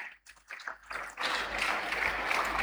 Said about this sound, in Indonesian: Sekali lagi kita beri aplaus untuk Ibu Dani.